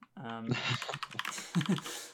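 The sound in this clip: Computer keyboard typing as notes are written down, a rapid run of light clicks under a voice that talks over them.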